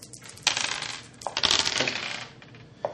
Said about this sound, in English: Take your dice. Yeah. Roll your dice.